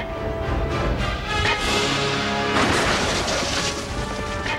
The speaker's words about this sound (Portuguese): Ele destruiu o trilho.